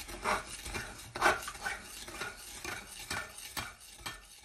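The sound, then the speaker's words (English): A spoon stirs sugar that has sunk to the bottom of a fruit mixture for a shrub drink, making quiet scraping strokes repeated several times at an uneven pace. “Oh, maybe we should give it a stir. The sugar's sank to the bottom. I'm just going to give it a bit of a stir.”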